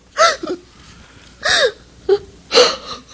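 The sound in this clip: A woman sobs and wails in a dramatic scene: a few loud, pitched wailing cries broken by short gasping catches of breath, alone without talk.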